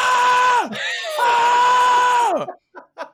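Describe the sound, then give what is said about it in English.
A voice imitates men screaming while lifting free weights: two long, strained, sustained yells, each dropping in pitch at its end, followed by a couple of short breathy bursts. “I'll just start hearing screaming, like screaming. Not just like yelling like, oh, like, no, I'm hearing like,”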